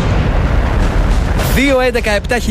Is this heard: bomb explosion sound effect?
yes